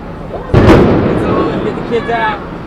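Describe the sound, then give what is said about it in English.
A single sharp boom from a concussion grenade or tear gas launcher fired by police at a street march during a political convention, followed by a loud, sustained rumbling wash of noise. “Those were the sounds of concussion grenades and tear gas being launched by police during a peaceful march on the second day of the Republican Convention.”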